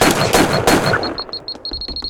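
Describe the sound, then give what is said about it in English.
Sport rifle shots ring out in a video game. A few sharp, loud blasts come first, then a run of high electronic beeps that speed up into an almost continuous tone. “I use a sport rifle to get him to.”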